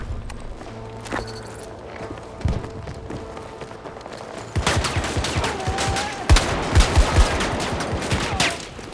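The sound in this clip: Shotgun blasts and a grenade in a video game shooter battle, with quieter background action giving way to a dense run of loud, sharp bursts from about halfway through.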